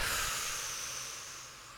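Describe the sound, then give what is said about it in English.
A deep breath in followed by a slow exhale during a guided relaxation exercise: a soft, continuous airy hiss that gradually tapers off. “take a deep breath in. And let it all go.”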